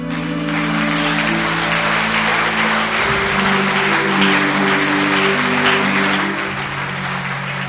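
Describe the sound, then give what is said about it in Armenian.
Warm, sustained applause from a theatre audience after a stage performance, a loud, dense wash of clapping that holds steady and eases slightly near the end. “Մեկ ժամ 40 րոպե տևողությամբ ներկայացումն ուղեկցվում էր հանդիսատեսի ջերմ ու տևական ծափերով։”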